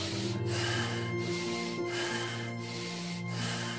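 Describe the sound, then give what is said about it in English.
Deep, rapid rasping breaths of a person gasping in and out in an even rhythm, with short regular breaks between them, over a steady low tonal drone. “in deep and rapid rasping gasps, like breathe this way.”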